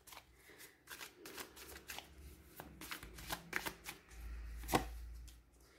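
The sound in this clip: Tarot cards are shuffled in a faint, uneven series of soft riffles, slaps and flicks, with a few sharper snaps among them.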